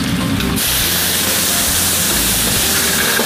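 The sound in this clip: Loud, continuous sizzling hiss of garlic and tomatoes frying in hot oil, an unbroken bright crackle that stays dense and even throughout.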